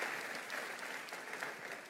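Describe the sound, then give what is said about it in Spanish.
Congregation applauding in a church after a scripture reading, a steady, dense patter of many hands clapping for the full two seconds, fairly faint and even throughout. “Un aplauso a la palabra del Señor.”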